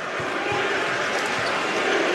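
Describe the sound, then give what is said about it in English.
A basketball is dribbled during a Big East college game between Creighton and Marquette. A few low, dull bounces thump beneath loud, steady crowd noise from the arena. “Ashworth working the dribble, just standing and dribbling with 10 to shoot.”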